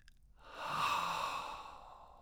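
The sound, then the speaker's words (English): A single deep guided breath drawn in and let out swells into a soft airy rush, then slowly fades. “So let's take a deep breath and get ready. All the way in.”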